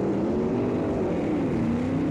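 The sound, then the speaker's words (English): Steady engine drone of a car driving fast, a continuous low hum that dips slightly in pitch partway through, with no voices over it. “That's why I'm driving so fast.”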